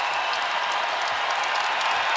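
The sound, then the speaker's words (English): Fans cheer at a Wisconsin college basketball game in the Kohl Center after back-to-back three-pointers, a steady, dense roar of cheering and applause that holds without a break. “Crowd loving it here at the Kohl Center. They should.”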